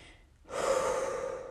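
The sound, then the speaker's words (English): Deep, slow breathing during a guided relaxation: after a quiet start, a single long, airy breath swells in and is held steadily to the end, soft and even with no voice over it. “take a seat, relax your body, and breathe in and out. Nice, deep, smooth breaths to your tummy.”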